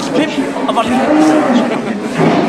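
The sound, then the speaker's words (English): Cattle moo in the pens at an annual fat stock show and sale: loud, overlapping, drawn-out lowing that fills the whole moment without a break. “We have our annual fat stock show and sale. Fat premium stock. Cattle.”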